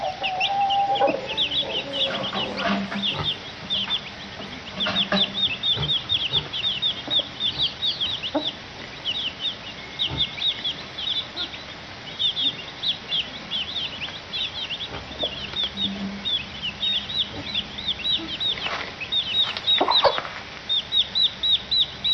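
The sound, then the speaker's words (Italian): Chicks peeping in a dense, continuous chorus of short, high-pitched chirps that overlap with no break for the whole stretch, fairly loud, with no voices. “Allora, guardate i pulcini dove vanno.”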